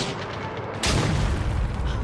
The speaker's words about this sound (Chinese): 可是我们只有3发炮弹， 关键是看射击的质量。 预备，放！